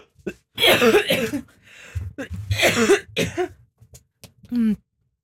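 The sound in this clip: Someone with a sore throat coughs and clears their throat in a few loud, raspy bursts separated by short pauses.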